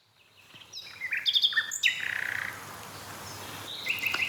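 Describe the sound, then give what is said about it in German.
A nightingale sings on the first of May. Bright chirps and whistled phrases come in quick clusters, then a short buzzing trill and a brief closing phrase over quiet background. “Sehr schön. Danke, liebe Nachtigall.”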